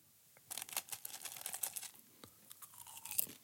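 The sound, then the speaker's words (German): Popcorn being eaten, with many faint, crisp crunches and moist chewing sounds in an irregular rhythm, quiet and alone without talk. “esse jetzt noch ein bisschen Popcorn”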